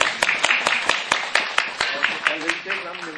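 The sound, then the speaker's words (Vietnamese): An audience claps in a steady, even rhythm, with sharp regular claps over people talking. “Rất là xứng đáng, vỗ tay đi.”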